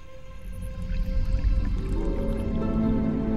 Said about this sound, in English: Ben sees Sarah pour milk into her coffee.